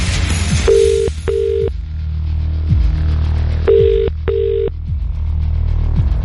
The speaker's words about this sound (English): The computer is selecting a number at random. And we're about to hit dial.